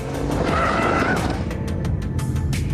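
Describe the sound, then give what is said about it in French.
Loud, continuous roar of an Aston Martin Vantage with a twin-turbo V8 and aluminium chassis, driven hard on a circuit west of Paris as its rear tyres mark the tarmac. Steady engine noise with tyre squeal and skidding throughout. “la Vantage et son châssis en alu ne prennent pas à défaut. Tandis que le V8 biturbo s'époumonne gaiement.”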